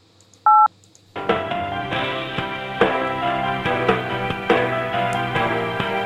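A single telephone keypad tone sounds as zero is pressed, a short steady beep followed by a pause. A louder, continuous musical passage with regular beats then begins and runs to the end.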